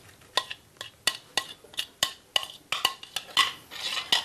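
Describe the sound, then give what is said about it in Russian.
Sliced food dressed with soy sauce is stirred with a utensil, which strikes the bowl in a quick, irregular run of many sharp clinks and taps. The sound is fairly quiet throughout, and no one speaks. “Добавляем соевого соуса. Еще раз все перемешиваем и заливаем.”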